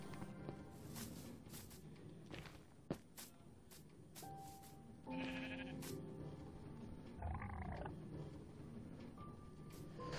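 A sheep bleating in a video game: a short, faint, wavering bleat among quiet game sounds, clicks and soft tones.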